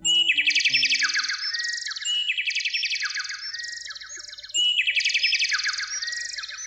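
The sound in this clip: A songbird sings its morning vocal exercises in a series of high, bright trilling phrases. Rapid repeated notes rise and fall, with brief dips between phrases and a stronger burst of song near the end.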